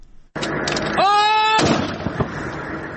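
Artillery and gunfire during a military operation against insurgents near Lashkar Gah: a sudden loud blast, then sustained rough rumbling noise with further crackling bursts and a brief wavering tonal sound partway through.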